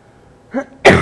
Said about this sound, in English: Need to get a good cough out, that's all.